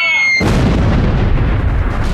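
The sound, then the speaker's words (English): Incoming missile explosion sound effect: a brief high tone, then a sudden loud blast that rolls on as a dense, heavy rumble to the end. “Look out! Incoming fire! It's an imp missile!”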